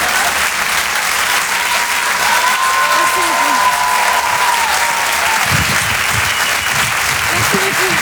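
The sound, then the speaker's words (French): Steady, dense applause from a live audience after a comedy act, loud and unbroken throughout, with a voice faintly audible beneath the clapping toward the end. “On peut l'applaudir très fort, Marine Baousson”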